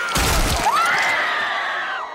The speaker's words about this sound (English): The Red Viper, whose head exploded. Gonna smash their head in like this!